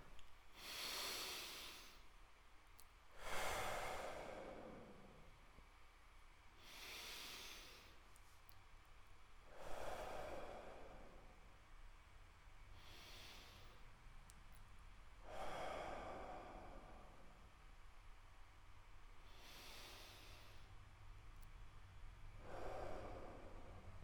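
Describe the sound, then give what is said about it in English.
Slow, deep breaths in and out: a series of long, airy rushes of breath, evenly spaced and fairly soft, with quiet pauses between them and no talk. “Let's take a couple of deep breaths heading into the weekend. Breathe in, but hopefully not too much pollen. Breathe out.”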